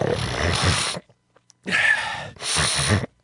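A person with a runny nose sniffing and snorting: three loud, breathy, noisy bursts, each around a second long, separated by brief silences.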